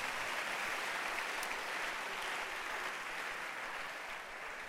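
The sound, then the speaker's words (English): A church audience claps their hands during a service, a dense, steady wash of many overlapping claps that holds at an even level and eases slightly at the very end. “And I believe, clap your hands for Jesus.”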